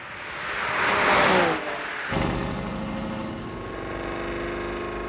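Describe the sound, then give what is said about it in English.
Engine of a Porsche 911 Carrera sports car on the Autobahn: a loud rushing swell builds and peaks, then breaks off abruptly into a steady, droning engine hum that holds at an even level to the end. “The Porsche 911 Carrera.”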